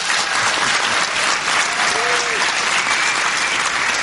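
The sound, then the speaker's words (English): A studio audience claps in welcome at the opening of a medical talk show. The applause is loud, dense and steady for about four seconds, with no voices over it. “I would like you to make your presence known by putting your hands together. So 3, 2, 1, welcome to the Doctor's Lounge.”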